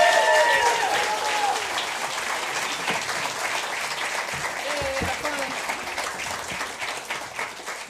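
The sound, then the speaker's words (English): An audience applauds to welcome a performer onto the stage at a live country music evening. The clapping is dense and sustained for several seconds, a voice is briefly heard at the start, and the applause eases toward the end. “Folks, give her a big Farm and Fun Time welcome, if you would.”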